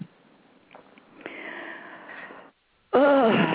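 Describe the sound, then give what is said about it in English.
Heavy breathing: a long, rough, noisy breath drawn over a couple of seconds, followed after a brief silence by a louder, voiced burst. “I'm just breathing a little bit”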